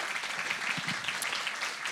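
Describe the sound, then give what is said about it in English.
Applause from an audience at a church service: a steady, dense wash of many hands clapping, moderately quiet and even throughout, with no voices over it. “So can we just give them a round of applause as a thank you?”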